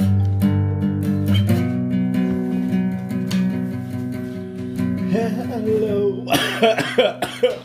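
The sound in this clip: Harsh, repeated coughing and throat clearing in a quick cluster of bursts, following a stretch of steady, sustained tones.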